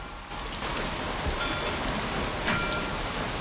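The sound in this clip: Driving rain pours down on a small sailing boat in a storm, a dense, loud, unbroken hiss that stays steady throughout with no voices.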